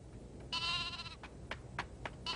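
A lamb bleats faintly, first with one long wavering cry and then with several short bleats spaced over steady background noise.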